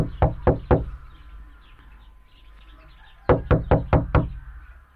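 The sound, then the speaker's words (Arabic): Knuckles knock on a door: three quick, loud raps, a pause, then five more evenly spaced raps, sharp and hollow over a quiet background. “تفضل يا أبا علي، لنطرق الباب.”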